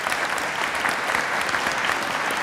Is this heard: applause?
yes